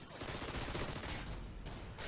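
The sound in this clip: A mini Uzi fires in a video game, a faint, dense burst of rapid automatic gunfire that runs unbroken for about two seconds.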